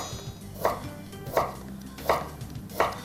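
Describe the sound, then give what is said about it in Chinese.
Knife slicing halved bamboo shoots on a cutting board: four evenly spaced, crisp chopping thuds at a steady rhythm, moderately loud, with no talk. “然后笋子，对半，直接切片就好喽。”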